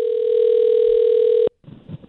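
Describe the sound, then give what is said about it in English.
A telephone line tone after a number is dialed: one steady, loud tone holds for about one and a half seconds, then cuts off abruptly, leaving faint, uneven low noise. “We've dialed up the number. Let's see if they answer. Here we go.”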